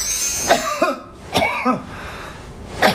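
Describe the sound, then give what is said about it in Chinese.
Short coughs of the kind linked to cold phlegm, sounding clear and brief. A few separate hacks come in loose pairs, with a quieter, breathy background between them. “听声音，这是咳嗽的声音，它会有特色。”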